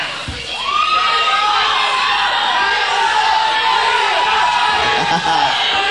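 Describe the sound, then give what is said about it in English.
A rock concert audience on Long Island hollers loudly, a dense roar of cheers, whoops and shouts. It swells up after the first moment and then holds as a sustained, full-volume wall of crowd noise. “All right. Holler real loud. You can get your friends to hear you on.”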